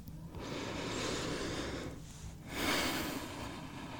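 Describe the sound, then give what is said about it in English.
A deep, nervous breath drawn by a singer just before a song: long, breathy rushes of air with a short dip partway through, then a louder, fuller second phase that fades slightly. No talking. “I just suddenly got really nervous, so I'm just taking a deep breath.”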